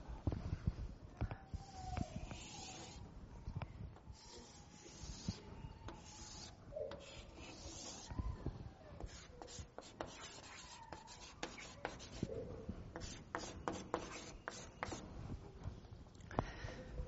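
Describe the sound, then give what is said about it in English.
Soft scratching and rubbing of someone sketching a very simple illustration, faint continuous strokes broken by small taps and scrapes throughout. “Just a very simple drawing.”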